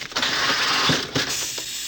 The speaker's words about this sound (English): Into the elevator.